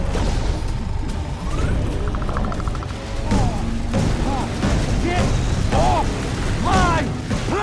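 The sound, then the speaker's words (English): A plane's fuel tank explodes in a sci-fi action film, a sustained heavy roar and rumble with booming bursts and whining tones sweeping over it throughout. “The plane explodes and burning debris falls around Torres as he lies on the wing.”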